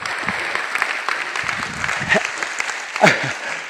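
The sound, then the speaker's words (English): A church audience applauds during a sermon, a short burst of brisk, lively clapping that swells slightly toward the end. “Come on, let's give God a hand, right?”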